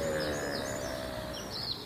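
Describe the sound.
Morning birds tweet outside a window: faint, high chirps drift over a steady background hum, with no voices.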